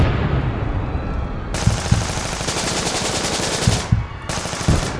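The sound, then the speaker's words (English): Artillery batteries firing their guns in a rapid, continuous barrage. Many sharp, rattling reports run loud throughout, dipping briefly near the end before resuming. “Batteries in position, sir! Commence firing on the hour! Yes, sir! 20, 15, 10, 5, 0! Commence firing! Fire!”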